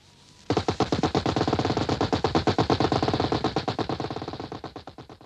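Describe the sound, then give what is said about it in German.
Machine gun fire: a long, continuous burst of rapid shots that begins abruptly after a brief quiet moment, holds a steady fast rhythm, then gradually weakens toward the end. “Verdammt, ja, Maschinengewehre,”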